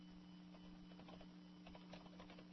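Faint, rapid typing on a computer keyboard, with many light clacking keystrokes in uneven bursts over a steady low electrical hum.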